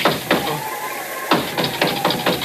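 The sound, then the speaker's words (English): Knocking on a door, given as a secret signal knock: a patterned series of sharp, hollow raps in two clusters, a couple of quick knocks, a pause, then a faster run of several more. “Who's that? Oh, great. That was the sacred nine knocks of Oompa Papa.”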